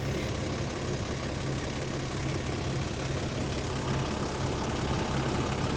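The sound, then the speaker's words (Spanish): Engine of a rural line bus idling, a steady low rumble with a broad mechanical roar that holds evenly throughout, with no voices. “Recuerdo perfectamente el sonido del motor, rugiendo impaciente a los pasajeros que subían o bajaban en cada uno de los pueblos.”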